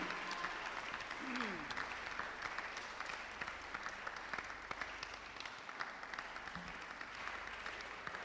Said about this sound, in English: let's put our hands together and let's welcome upstage my wife, Honam.